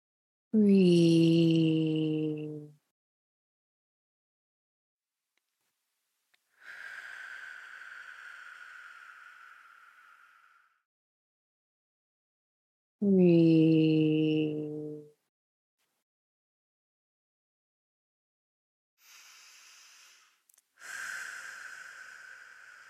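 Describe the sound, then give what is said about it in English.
Slow, deep breaths: long airy rushes alternate with voiced, sighing exhalations, each separated by several seconds of silence; a few breaths in all and no talk. “we're going to take 3 nice deep breaths at your leisure.”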